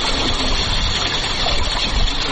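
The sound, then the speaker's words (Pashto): A drip irrigation system pumps water with a steady, dense rushing roar of pump and flowing water. The noise runs continuously without pauses, and no voices are heard. “دغه غږ د اوبو څاڅکي سیستم دی چې د انرژي یا اوبو د ضایعاتو د مخنیوي لپاره یو مورژنه چاره بلل کیږي.”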